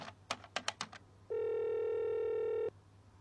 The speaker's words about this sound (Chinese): 看着贴在墙上的号码，他按下按键式电话的数字键，